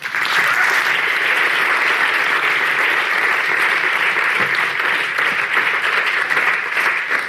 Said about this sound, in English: it's my absolute pleasure to invite you all to give a very warm welcome to Naomi Klein and Ed Miliband and invite them to take their seats.